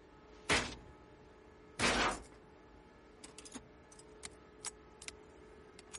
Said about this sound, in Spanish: introduce un tornillo en la cerradura y lo amartilla.